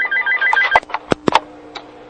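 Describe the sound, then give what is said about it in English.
A telephone rings with an incoming call, an electronic trilling ring at the start followed by a few short, sharp clicks and tones as the line is picked up. “Well, wait, we got a caller. Do you want to take him?”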